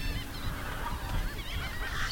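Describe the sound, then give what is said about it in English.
Goose-like honking calls from shorebirds crowd the coastal brush of mesquite and prickly pear on a guarded island. Many overlapping nasal calls run continuously over a dense background, with no talking. “Birds are just everywhere in the brush here.”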